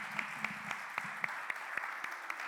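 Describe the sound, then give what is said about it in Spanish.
Applause from a church audience welcoming a woman who will give a testimony: quiet, steady clapping with a few sharper claps standing out at a regular pace. “Vamos a recibirla con un gran aplauso en el nombre del Señor Jesucristo.”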